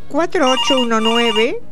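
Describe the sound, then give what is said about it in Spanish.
A telephone ringtone sounds for an incoming call to a call-in answering line: one short melodic phrase of bright, gliding electronic tones, fairly loud and heard alone. “que ya nos están llamando. ¿Cómo suena, eh?”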